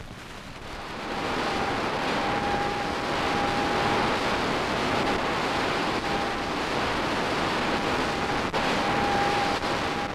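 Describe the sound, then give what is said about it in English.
Heavy radio static from a signal received from the planet Jupiter by a radio telescope: a dense, steady hiss that rises early on, with a faint, thin, high steady note that comes and goes above it. “You'll notice first a heavy sound of static, then, very faintly, a higher note over the static. Listen closely now. Here it comes. A radio signal thrown some 400 million miles across space. This is the sound of Jupiter.”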